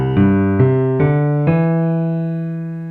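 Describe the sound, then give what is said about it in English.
A piano plays a left-hand pattern on a major chord: a bottom note, a top note, the bottom again an octave higher, then a lead into a middle note. Four notes come in an even, moderate rhythm, and the last rings on and slowly fades. “So I'm going to play the bottom note, top, hit the bottom again, an octave higher, and I'm going to lead into that middle note.”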